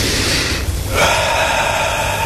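A deep breath taken during rifle-shooting instruction: a steady, breathy rush of air lasting about two seconds, briefly dipping near the middle before swelling again. No one speaks.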